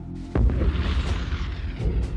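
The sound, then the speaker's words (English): Artillery shells crashing on a front line in France: one heavy boom near the start, followed by a rumbling roar with a few fainter bursts. “Punctuated by the crash of artillery shells and the rattle of the machine guns.”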